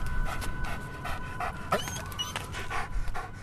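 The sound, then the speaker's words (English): A police dog pants rapidly and whimpers, excited at hearing sirens while recovering from taking down a violent suspect. Quick, rhythmic breaths run throughout, broken by thin, high whines, with no voices. “That's the sound of Anchorage police dog MP, who upon hearing police sirens was begging to go after some bad guys”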